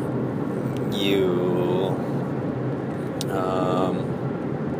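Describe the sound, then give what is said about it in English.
Road noise fills a car interior on a drive from Vancouver to Kamloops: a steady, broad rumble with faint, higher whining tones that briefly swell and fade. “So I'm driving right now. I'm driving to actually meet Todd and Joey.”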